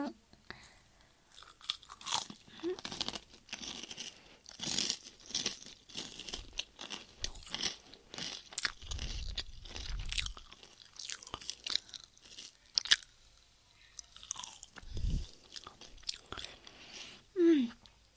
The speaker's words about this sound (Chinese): 你先把这口吃了，来啊，吃掉，我也要吃